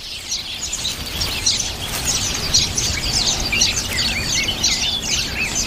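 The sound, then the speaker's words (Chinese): Black-faced finches calling at their nest, many high, quick chirps and twitters repeating in busy overlapping bursts over a low background hum, moderately loud with no voices. “雄性黑脸知雀负责打造爱的小窝，几只雌性亲鸟负责喂养雏鸟”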